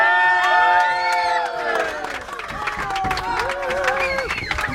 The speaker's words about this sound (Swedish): Men jag står här på buss nummer 3 med ett härligt och glatt gäng. Ja, ni hör stämningen här.